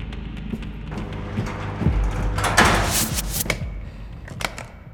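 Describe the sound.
A pod closing and sealing, heard as a few dull mechanical thuds and knocks, then a broad burst of airy hiss that swells and fades, with light clicks afterward.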